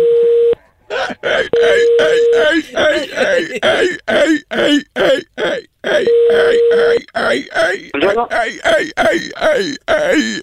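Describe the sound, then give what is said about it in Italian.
A man's voice imitating a seal during a phone call, with many short, rhythmic barking grunts and groans in quick bursts. Brief steady line tones appear between some of them. “stavo facendo la foca”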